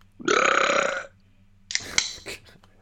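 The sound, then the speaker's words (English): A long, loud, rumbling burp lasting nearly a second, made while trying to open a can of beer, followed after a short pause by a few sharp, brief bursts of noise. “I'm gonna pop this beer open with my burp.”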